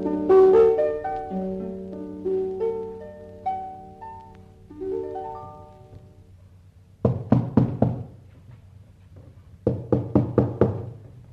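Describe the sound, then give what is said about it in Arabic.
Knocking on a wooden door in an Arabic One Thousand and One Nights drama, two bursts of rapid, loud raps following a stretch of music, with a short pause between the bursts. “هو مفيش هنا حد؟ كل ما خبط على باب محدش يرد.”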